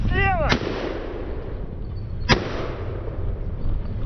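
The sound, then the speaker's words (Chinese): Two sharp, loud gunshots ring out about two seconds apart, fired from a moving vehicle at low-altitude targets on a mobile firing track during anti-drone training. A continuous rumbling engine noise runs beneath them. “我们现在是位于机动射击的跑道上，训练的科目即机动车行进中对低空目标的射击。”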